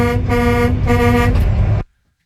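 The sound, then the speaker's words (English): A truck air horn, sounded by pulling its cord, blasts one loud, sustained, brassy honk that holds steady for nearly two seconds before cutting off sharply into silence. “I'm just over here pulling the air horn, you know, the international sign for the truck driver horn.”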